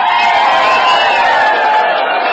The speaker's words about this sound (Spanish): Un aplauso para el pueblo de Cabón.